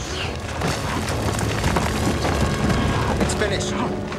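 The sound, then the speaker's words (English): A phaser blast explodes on a sheer mountain path and brings down falling rocks, heard as a dense, sustained rumbling roar that stays loud and even throughout. “As he pushes her, a phaser blast explodes in front of them, blocking the path with falling rocks.”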